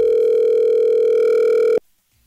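A telephone dial tone sounds while a call is being placed, a steady, loud single pitch holding for nearly two seconds before it cuts off abruptly into near silence.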